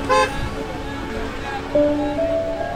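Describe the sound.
A car horn gives a short, bright toot at the start as a car drives off, followed by a quieter stretch with faint steady tones and low rumble.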